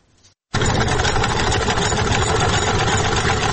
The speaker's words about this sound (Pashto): د کالیو ګنډلو ماشین د څرخ تاوولو سره